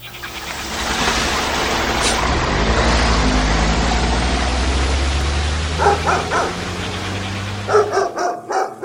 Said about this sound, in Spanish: Si la perra está amarrada, aunque ladre todo el día, no la deben de soltar.